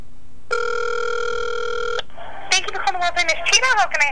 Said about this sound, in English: It says dialing. Make sure it's on speaker. It's not. Now it is.